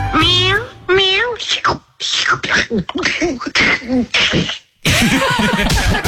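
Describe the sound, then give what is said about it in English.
A person imitates a cat sipping spoiled milk with a string of loud, wavering meow-like vocal sounds, ending in a harsher, noisier sputter. “could you give us a cat that is taking a sip of milk that it realises is off?”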